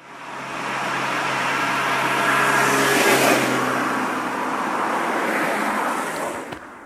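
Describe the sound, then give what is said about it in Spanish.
A luxury car approaching a roadside police check: broad engine and road noise swells steadily to a peak near the middle, then eases slightly while staying loud, with no voices. “Por ahí viene la típica niña de papá con su coche de lujo.”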